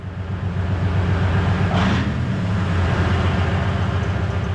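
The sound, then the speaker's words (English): A Soviet-made wheeled armored OSA anti-aircraft missile vehicle drives, giving a steady, loud, low engine rumble throughout, with a brief brighter burst of noise near the middle. “Soldiers from the Biloterkva Air Defense Regiment are driving their anti-aircraft missile system called OSA into cover. This giant Soviet armored vehicle on wheels is a lucrative target for Russian drones.”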